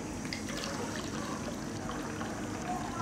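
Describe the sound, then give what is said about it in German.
Water runs from a garden hose while filling a water basin: a steady, continuous rushing hiss with no breaks. “Der Schlauch liegt noch da unten. Also Achtung, ich drehe auf.”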